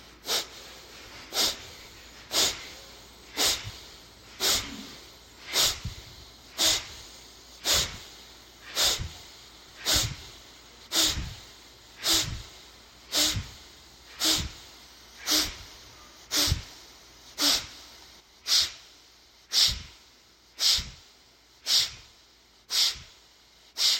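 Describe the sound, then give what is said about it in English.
Many forceful breaths follow one another at a steady, even pace, each a short rushing puff of air through the nose that repeats roughly once a second throughout. “Take a deep breath in. And we can begin.”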